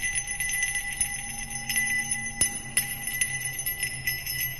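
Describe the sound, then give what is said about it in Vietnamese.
Hand bells ring in a procession, a bright, continuous metallic jingling with many repeated strikes and sustained ringing tones throughout, with no talk over it. “Mỗi một nhịp bước đi của họ lại theo một tiếng lắc chuông leng ca leng keng.”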